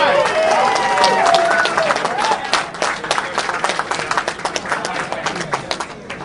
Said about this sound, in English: how about another round of applause for your next state chairman, Nick Langworthy